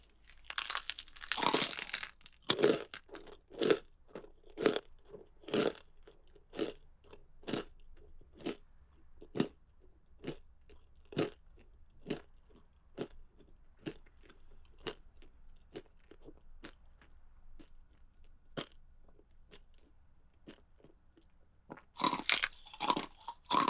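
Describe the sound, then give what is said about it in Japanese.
Crunchy food being eaten: many crisp bites and chews sound alone in a loose, uneven rhythm, with denser, louder crunching at the start and end and sharp single crunches between. “おいしいおいしいって思ってたらだいぶ少なくなってきちゃった。もうちょっと味わおうかな。”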